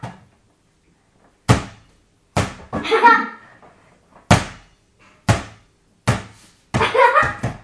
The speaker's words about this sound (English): Quite bouncy, this ball, isn't it?